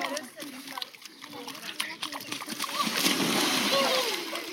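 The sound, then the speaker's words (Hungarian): Water splashes irregularly on the bank of the Danube during a heat dome, with sloshing bursts of varying loudness and voices in the background. “Ez például a Hőkupola alatt a Dunaparton vettem föl.”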